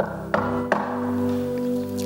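Two sharp knocks on a door as a man playing Joseph reaches an inn in a children's nativity game. They sound like quick taps under half a second apart, over a steady humming tonal background.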